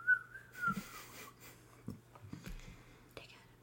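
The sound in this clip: A voice imitates whistling: a single breathy whistled tone that drifts gently lower in pitch, followed by quiet, whispery talk.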